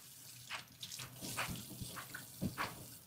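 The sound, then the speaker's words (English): Hands being washed under a running tap: quiet, steady water flow broken by several brief splashy bursts as the hands move through the stream. No talking. “Let me wash my hands.”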